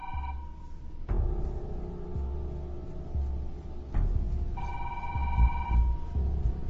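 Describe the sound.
An electronic telephone ring sounds in two steady, even-pitched bursts: a short one at the start and a longer one near the end, separated by a pause. A low background rumble runs underneath and a couple of sharp clicks fall in between.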